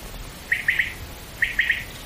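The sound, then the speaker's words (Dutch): Common quail calling in the Groningen countryside: two phrases of three short, sharp, high-pitched notes each, separated by a pause, over faint steady background noise. “Dat is hem. In de Groningse Ruiten A hoort Huib de kwartel.”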